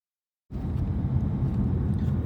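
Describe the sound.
A car being driven: after half a second of silence, a low, steady rumble of engine and road noise begins and holds evenly to the end.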